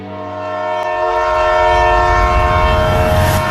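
A passenger train travelling from Beijing sounds a sustained, chord-like horn, steady in pitch. A deep rumble of the moving train swells beneath it and grows louder, and the train is loud throughout.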